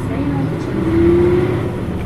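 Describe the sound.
A bus pulls away from a stop, its engine giving a steady low drone with a humming tonal note. A voice is heard over it.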